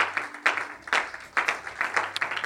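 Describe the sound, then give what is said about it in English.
Congregation giving a hand clap of praise in a church service: soft, rhythmic clapping in a quick, regular pulse of several beats, some claps landing more sharply than others. “Let's give the Lord a hand clap of praise this morning.”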